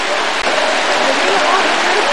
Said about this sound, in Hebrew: חוצים את הנהר הזה. משאירים לכם קצת תרבות. בזהירות חוצים אותו.